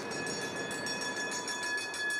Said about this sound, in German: Im Osthafen angekommen, fährt die Lok dicht am Wasser entlang.